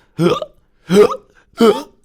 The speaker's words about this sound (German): Da ist er wieder, dieser dinomenale Schluckauf. Der erwischt unseren Dino immer, wenn er aufgeregt ist.